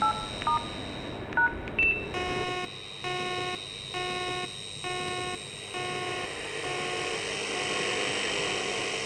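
Touch-tone dialing on a mobile phone keypad: a few quick key beeps, then a run of steady dual-tone presses with short gaps, ending in one long sustained tone over faint hiss.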